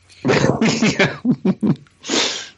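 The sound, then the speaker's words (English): A hard nasal snort, like someone snorting cocaine, arrives as one loud, breathy burst at the end, after a run of short, strained voiced vocal sounds that rise and drop in quick pulses. “Are you snorting coke?”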